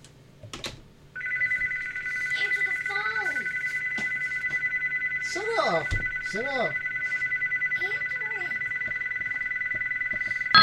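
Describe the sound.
Electronic telephone ringing as a steady, high, unbroken tone that starts about a second in and continues to the end, while people talk briefly over it.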